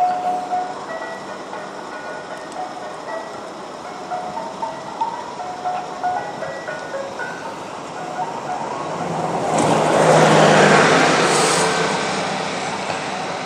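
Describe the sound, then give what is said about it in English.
An ice cream van with a car behind it drives past on a London road; a faint tinkling chime melody plays before a broad whoosh of passing vehicles swells, peaks and fades. “There's like an ice cream van and a car behind it.”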